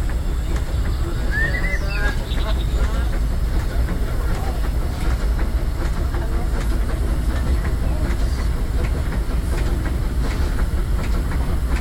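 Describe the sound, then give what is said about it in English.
A theme-park mine train roller coaster in a wilderness setting runs with a dense, steady rumbling roar and a rapid clattering of wheels on track. The noise stays loud throughout, with brief hissing and squealing tones. “Spirits have grabbed hold of those mining trains and turned them into the wildest ride in the wilderness. Here it is.”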